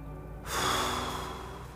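A single deep breath in and out: a long, airy rush begins after a short pause, swells, then slowly tapers off, alone with no talk.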